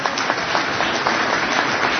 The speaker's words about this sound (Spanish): Un aplauso para los monaguillos.